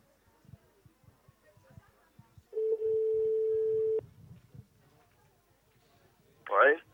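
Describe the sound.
A telephone ringing tone on the line: one long, steady, low-pitched tone lasting about a second and a half, over faint background rustling, followed later by a brief noisy burst.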